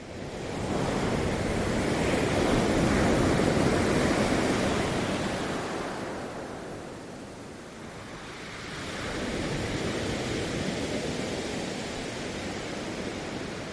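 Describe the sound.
Surf washing onto a beach: a broad, hissing rush of waves that stays loud for several seconds, fades into a brief lull, then swells again more gently.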